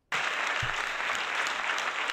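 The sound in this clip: Audience applause welcoming a guest, a sudden burst of dense clapping that starts abruptly and holds steady at full volume throughout.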